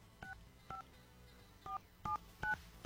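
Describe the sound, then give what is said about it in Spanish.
Telephone keypad tones as a radio host dials a contest caller: several short, clean two-pitched beeps at uneven intervals, fairly faint, with no talk. “Estamos marcando.”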